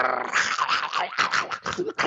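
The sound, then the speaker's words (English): A person imitates a dog growling while it guards a squirrel in its mouth, making a harsh, raspy, continuous growl that pulses in short surges for about two seconds. “When I went to get the squirrel out of the dog's mouth, like to fetch it, the dog was like”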